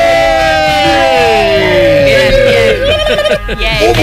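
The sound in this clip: A loud crowd cheers and whoops while raised voices shout energetically over the din. The noise grows more scattered and choppy toward the end.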